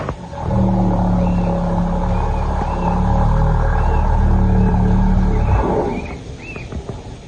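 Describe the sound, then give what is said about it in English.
A low, eerie rumbling sea noise attributed to whales swells in and holds steady for about six seconds. Faint, rising whistle-like tones sit above the deep drone before it fades away. “An eerie rumbling noise which has perplexed in the past lighthouse keepers and fishermen. Well, now scientists at the SETI Institute in California have concluded that it is all the work of whales”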